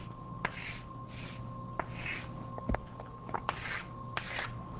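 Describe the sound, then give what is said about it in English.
A quiver diagram is drawn by hand with soft, scratchy rubbing strokes. Several short strokes are broken by faint ticks as the tip meets and leaves the surface, all quiet and without talk. “Okay, so let's see what happens when I do that. I suppose I need to draw this quiver again.”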